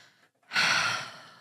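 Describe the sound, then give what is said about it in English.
One big, deep breath, loud and breathy like a sigh, starts abruptly after a brief quiet moment and then fades gradually. “I just needed a big breath before we continue the podcast.”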